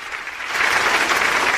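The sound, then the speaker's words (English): A round of applause saluting basketball teammates' record-setting games. Massed clapping starts moderately, then thickens and grows louder after half a second, holding steady to the end. “As a matter of fact, they'll get a round of applause for that.”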